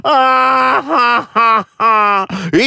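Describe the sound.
A person wails loudly in a few long, strained voiced cries, with pitch bending and wavering through each cry and short breaks between them.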